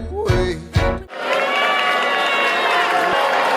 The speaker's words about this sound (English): The mixed audience reaction is from Vice President-elect Mike Pence's arrival to see the Broadway show with his daughters on November 25th.